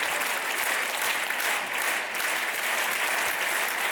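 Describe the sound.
Audience applause for an honored maestro: a dense, steady wash of many hands clapping that holds at an even level for the whole stretch without a clear break.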